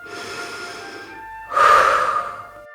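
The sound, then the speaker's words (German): A slow, deep breath is drawn in as a soft, airy rush, followed after a short pause by a louder, fuller exhale, heard alone. “Atme einmal tief ein und wieder aus.”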